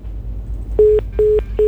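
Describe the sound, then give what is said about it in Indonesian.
Busy tone of a phone line cut off as a radio call-in caller drops: a few steady, mid-pitched beeps at an even pace, the last one cut short, over a low background hum. “Ah, sayang sekali terputus, boleh dicoba lagi nanti ya.”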